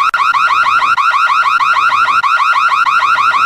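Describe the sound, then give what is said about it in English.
A house alarm going off: a loud electronic siren of rapid, repeating rising warbles that continues steadily and evenly, with no voices. “The house alarm went off.”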